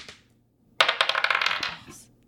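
Dice clatter as they are rolled for a sudden-death tiebreak during a card game, a brief burst of rattling clicks that dies away after about a second.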